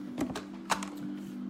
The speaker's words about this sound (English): Let me get the card. Starting off strong with the card drop. Let's see what the card is for the day.